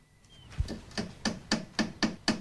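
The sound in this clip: A hammer drives a nail through two pieces of wood forming one corner of a dollhouse: seven faint, crisp strikes, the first a dull thump, then six even blows in a steady, fairly quick rhythm.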